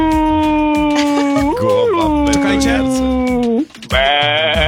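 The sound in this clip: A voice imitating sheep bleating gives two drawn-out, nasal, wavering bleats. The first is long and the second follows after a brief pause.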